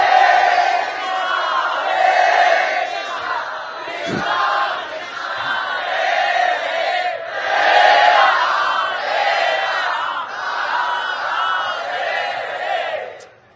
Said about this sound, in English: And to turn to Krishna with humility and thank him as we loudly cry out together his holy name.